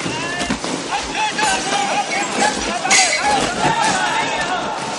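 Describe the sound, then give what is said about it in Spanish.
Household belongings thrown down from upper corridors by soldiers clatter and clink onto the ground in a scattered series of sharp impacts, heard under a narrating voice. “Cuando el bloque queda vacío, los soldados arrojan enseres desde lo alto de los corredores.”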